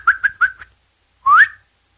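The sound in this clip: Human whistling: four short, quick chirps in a row, then after a pause one longer whistle that slides upward in pitch, clear and alone.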